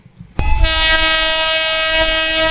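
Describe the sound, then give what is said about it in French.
A train horn blares as a passenger train arrives at the railway station in Tivaouane: one loud, sustained harmonic blast that starts abruptly and holds steady for about two seconds. “C'est à 11h10 que le premier train est arrivé à la gare de Tivaouane.”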